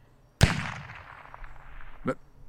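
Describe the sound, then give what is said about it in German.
A single sharp gunshot cracks out in an apartment building, loud against quiet, trailing off in a fading tail, then a softer knock follows about one and a half seconds later. “Was war das? Das war doch ein Schuss.”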